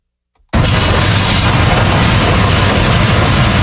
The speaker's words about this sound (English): That's the sound of DOT road crews in Cobb County clearing out storm drains ahead of the rains from Hurricane Isaias.